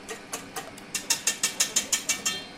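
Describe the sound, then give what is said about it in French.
A stand mixer works butter into flour, giving a steady run of rhythmic mechanical clicks and whirring pulses that repeat at an even pace across the whole clip. “Hop, dans le batteur mélangeur, ça commence à prendre tournure.”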